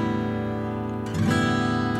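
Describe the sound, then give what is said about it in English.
An acoustic guitar's open strings are strummed in standard tuning, a ringing chord sustaining evenly before a fresh strum midway brings the strings back up louder and they ring on to the end. “If I was to play in standard tuning, it would, if I just strum the strings open, it would sound like this.”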